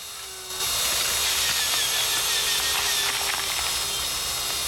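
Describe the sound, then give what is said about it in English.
A circular saw whirs steadily as it cuts an incision across the front of a human skull during an autopsy. The bright, high mechanical grind starts abruptly after a short quieter moment and holds evenly to the end. “then uses a circular saw to make an incision across the front of the cranium.”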